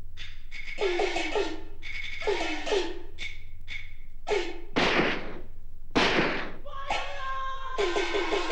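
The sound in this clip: Gunshots in a drama: two sharp, loud bangs burst out midway, set among recurring higher-pitched tonal sounds that come and go around them.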